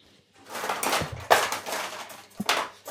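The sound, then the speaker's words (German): Clattering and clunking in a kitchen as an electric hand mixer is fetched, with a few hard knocks and rattles of utensils or drawers between quieter moments. “Und hole gleich das Rührgerät.”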